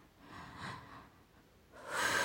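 A deep breath drawn in during a guided breathing exercise, with soft airy breath sounds at first, then a louder, rushing intake near the end.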